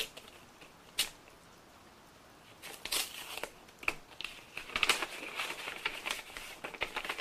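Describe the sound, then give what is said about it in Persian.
Paper crinkles and rustles as a letter is picked up and quickly opened: one sharp crackle early on, then busier, uneven crinkling toward the end, all fairly faint and without voices. “نامه ای را بر می دارد و به سرعت باز می کند و می خواند”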